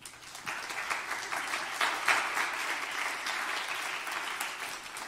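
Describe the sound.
Applause from a church audience welcomes a pastor and a bishop at an evening ministry training gathering. The clapping is steady and sustained for about five seconds, with no talk over it.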